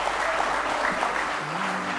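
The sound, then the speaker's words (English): Applause from a church audience clapping in praise during a service: dense, steady, loud clapping that holds without a break. “Give him a big hand clap of praise tonight in the house of the Lord.”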